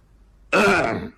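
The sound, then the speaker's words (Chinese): A single throat-clearing cough, voiced by a storyteller imitating a character about to step out from behind a screen: one loud, short, rasping burst of about half a second after silence. “咳嗽一声，由屏风后转出”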